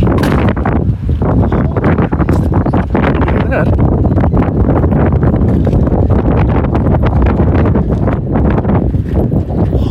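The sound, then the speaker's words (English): Strong wind outdoors blasting the microphone in a loud, continuous roaring rumble that barely lets up for the whole stretch. “Jeez, the wind is just crazy.”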